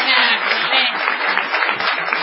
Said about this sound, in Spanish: No menos injustificada será la ovación tributada a Gillespie.